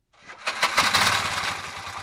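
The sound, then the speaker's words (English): Engine of a motorized three-wheeled rickshaw taxi running on compressed natural gas in New Delhi, starting with a few sharp bursts and then settling into a rapid, rattling putter that holds steady and loud. “Most Indians use rickshaws like this one to commute to work and run errands. They're basically three-wheel motorcycle taxis.”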